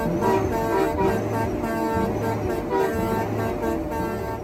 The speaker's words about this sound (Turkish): Dev kamyonların kornalarını sürekli çalıyorlar.